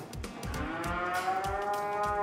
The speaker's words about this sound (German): Auf Hof Hahnenkamp in Schleswig-Holstein ist heute im Kuhstall mächtig was los.